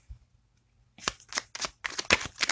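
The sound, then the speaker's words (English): Rider-Waite tarot cards are shuffled in a run of quick, crisp riffling bursts that repeat steadily after a brief pause at the start. “I have my Rider-Waite Tarot. A few cards came out, but I just put them back because I was still talking.”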